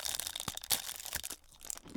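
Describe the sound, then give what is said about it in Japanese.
Quiet crisp crunching of someone biting and chewing a buttery cookie, a few sharp crackles scattered through the chewing with no talking. “こちらのあの友達のクッキーを食べたいと思います。いただきます。”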